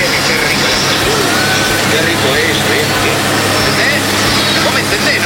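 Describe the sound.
Truck engine running, heard through a phone message, a steady low drone with a rough idling texture that stays constant beneath a voice speaking.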